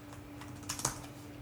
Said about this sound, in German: Such mal nach Öredev, kannst du das irgendwo schnell schreiben?